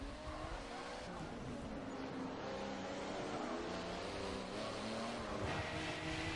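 A race car in a racing video game drives on the wet Hafit Mountain Pass. The engine note and tyre hiss on the wet road stay faint and steady throughout.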